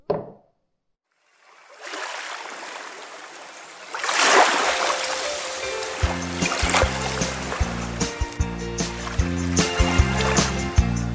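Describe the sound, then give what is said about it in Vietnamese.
A raft is pushed with long poles into the middle of a creek and drifts with the current. After a brief silence, a steady rush of flowing water and splashing builds, and music then comes in beneath it. “Mỗi cậu cầm trên tay một chiếc sào dài và hăng hái hè nhau chống cho bè ra giữa rạch và xuôi theo dòng nước.”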